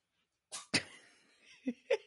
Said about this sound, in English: That was the cat sneezing.